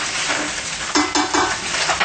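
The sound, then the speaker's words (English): A spoon stirs mushroom and eggplant into golden-brown sausage in an iron pot, giving a few loud scraping, clattering strokes over a steady low frying hiss. “And we're going to add in the mushroom and the eggplant. Just stir them together.”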